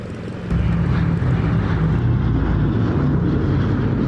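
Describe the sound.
Steady roaring drone of a Nord Atlas military transport aircraft in flight carrying paratroopers. It is loud and continuous, swelling after a brief quieter opening and then holding even to the end.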